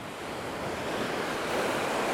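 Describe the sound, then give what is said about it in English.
Ocean waves coming in and washing ashore, heard as a steady, full rushing roar of surf with wind noise, building slightly toward the end with no voices. “And we look at the waves continually coming in, and the tide coming in, and the tide going out”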